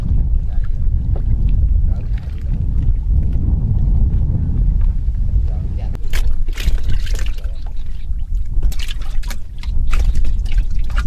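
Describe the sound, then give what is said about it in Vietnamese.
Water waves lap against the side of a small wooden skiff on flooded countryside during flood season: a low, continuous slosh with irregular splashes, drips and trickles, plus some wind buffeting. “tiếng sóng nước vỗ ong ốc vào mạn xuồng”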